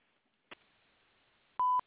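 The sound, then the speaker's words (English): A voicemail answering machine beep: one steady, clear tone lasting about a fifth of a second, preceded by a brief faint click and otherwise near silence. “After the beep, please leave a message.”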